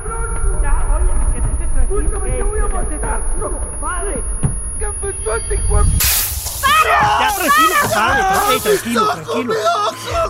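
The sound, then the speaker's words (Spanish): Pepper spray blasts out in a few short, harsh hissing bursts amid frantic shouting, crying and overlapping voices. “Tranquilo. Es gas pimienta nada más.”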